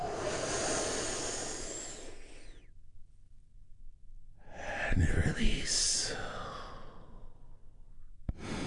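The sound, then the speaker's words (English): A deep breath is taken in and released during a guided relaxation exercise: a long airy inhale, a quiet pause, then a long breathy exhale. “we're going to take one big, deep, healing breath all together”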